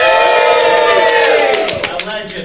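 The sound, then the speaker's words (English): A live audience at a gaming convention session cheers together in a loud, sustained chorus of voices. It gradually fades, with a few scattered claps toward the end. “And this is our live studio audience. Yay!”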